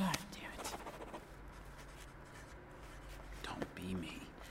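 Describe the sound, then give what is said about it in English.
A pen scratches as names are written down on paper, a steady run of soft, scratchy strokes with a brief louder scrape near the end, while voices murmur and whisper alongside. “Just write everyone's name down and put them in a bag.”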